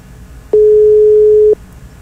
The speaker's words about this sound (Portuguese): Não atendeu. Não atendeu, a gente vai para uma próxima ligação, né?